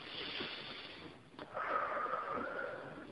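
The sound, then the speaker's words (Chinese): A slow, deep breath taken during a guided breathing exercise is a soft, airy rush of air drawn out over about three seconds, faint and with no talking. “好，跟着我深呼吸三次，来，第一次深呼吸。”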